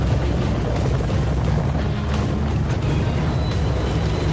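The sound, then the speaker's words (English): An Apache attack helicopter flies with a loud, unbroken rotor rumble and a whining engine that holds steady throughout. “back when Apache attack helicopters were a dime a dozen.”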